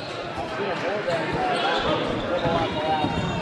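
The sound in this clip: A basketball being dribbled on a court during a game, its bounces faint beneath a commentator's talk and steady crowd noise.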